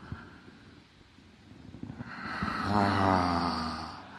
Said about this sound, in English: Breathe in. Give me that deep breath. And breathe out. Another one. Another one with the sound.